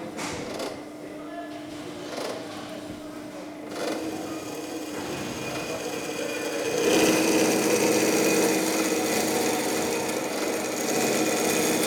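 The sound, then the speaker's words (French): A band saw cuts sheet metal and metal profiles in a technical school's boilermaking workshop. It makes a steady rasping, grinding hiss that grows louder and harsher about halfway through, then stays dense to the end. “En vrai, c'est une machine à ruban qui sert à découper des morceaux de tôle. Du profilé.”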